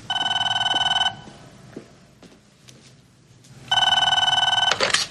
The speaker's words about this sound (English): Interrupted by a phone call?